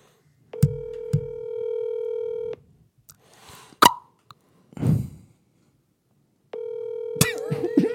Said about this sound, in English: We're going to be calling one of our friends of the cast.